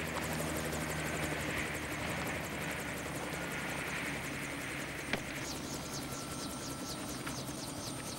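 A helicopter with its rotor blades slowing to a halt, a loud, steady whirring drone with a rhythmic blade beat running throughout and a single sharp click partway through.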